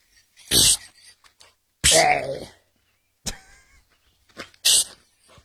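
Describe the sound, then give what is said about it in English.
A dog-training device that mimics a snake sounds off in a few sharp, loud hissing bursts, separated by short silences and softer breathy noises. “That noise is working. You're right, it's, Josh. They use it in dog training a lot because it mimics like snake noises in the wild.”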